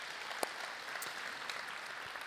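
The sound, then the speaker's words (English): An audience at a church service gives steady, continuous applause. The clapping is faint and even, with a few sharper claps standing out, and there is no speech over it. “Welcome all of those who are joining us, our Southeast Campus, our microsites, those who are watching online. Let's give them a big hand right now.”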